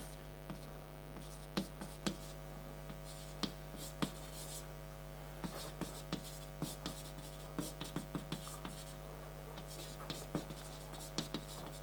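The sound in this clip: Writing on a board during a lecture makes many short, faint scratchy taps in an irregular rhythm over a steady low mains hum.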